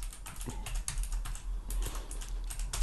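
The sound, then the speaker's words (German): Fast typing on a computer keyboard: many irregular clicks and taps in quick bursts, fairly quiet and steady, with no voices. “Ich liebe es, wenn du tippst. Du tippst so erotisch.”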